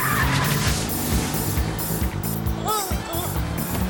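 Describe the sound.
A car accelerates during a chase, its engine roaring steadily and loudly, with a few sharp tire squeals rising and falling near the end.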